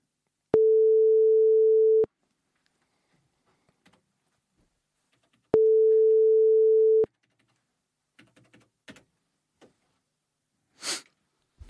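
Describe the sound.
Telephone ringback tone from an unanswered call to a boss: two long, steady mid-pitched tones separated by a silent gap, then a few faint clicks and a brief soft sniff-like hiss.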